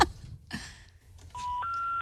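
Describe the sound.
Telephone dialing tones while calling a neighbor: a short electronic burst, then two steady pitched beeps, the second higher than the first.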